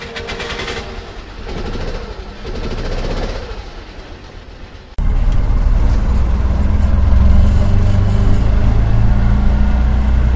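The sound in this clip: Ride inside an auto-rickshaw on a city road: a loud continuous engine drone and road rumble with a rattling texture, jumping suddenly louder about halfway through and then holding steady, with no talk.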